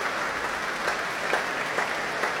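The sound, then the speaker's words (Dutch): A concert audience in Amsterdam applauds conductor Fabio Luisi and the orchestra. Dense, steady clapping runs at a moderate level, with a few individual claps faintly standing out from the wash. “Dat mogen blijken uit dit grote applaus voor Fabio Luisi.”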